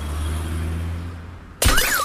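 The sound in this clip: An iPhone 14 Pro Max dropped from a window smashes a car's glass: a low steady rumble is cut by a sudden loud crash of breaking glass, and a warbling tone starts right after.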